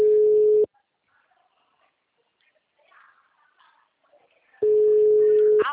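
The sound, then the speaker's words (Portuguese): Telephone busy signal on a call line: two long, steady mid-pitched tones, one at the start and one near the end, separated by several seconds of near silence with faint scattered sounds. “Por favor, aguarde. Todas as linhas estão ocupadas no momento. Por favor, tente mais tarde.”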